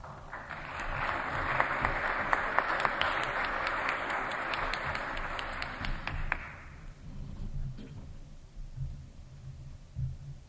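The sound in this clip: Audience applause welcomes a speaker at a Philadelphia Society event. Steady, dense clapping with a few sharper claps runs for about six seconds, then dies away to quiet room noise.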